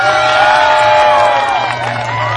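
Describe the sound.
A crowd cheers and whoops, many overlapping voices sustained loudly and evenly throughout.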